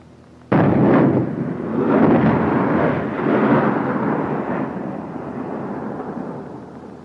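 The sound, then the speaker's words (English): High-explosive HEAT artillery rounds detonating: a sudden loud boom, then a long rolling rumble with further overlapping blasts, slowly fading over several seconds, with no talk. “Those were heat rounds. High explosive.”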